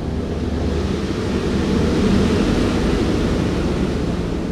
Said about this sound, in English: I'm inside the B-17, the aluminum overcast. We are now taxiing down the runway at the Eugene Airport.